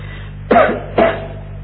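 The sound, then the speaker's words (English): Two sharp coughs from a lecturer, about half a second apart, each a short loud burst that fades quickly, set over a low steady hum. “Excuse me coughing like this. I had a Brazil nut for breakfast.”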